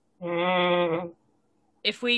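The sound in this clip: Small goats bleating: one long, steady, loud bleat with a clear harmonic tone, then a pause and a shorter, sharper call.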